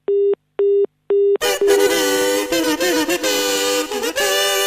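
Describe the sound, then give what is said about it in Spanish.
Answering machine beeps: three short, identical mid-pitched electronic tones, evenly spaced, followed at once by a dense, louder stretch of other sound. “Usted se comunicó con el programa Nosotros y los Medios. Después de la señal, deje su mensaje.”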